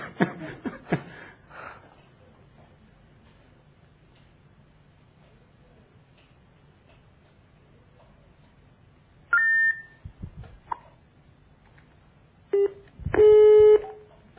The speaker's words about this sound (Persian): داریم تماس میگیریم، همون شماره قبلی هم هست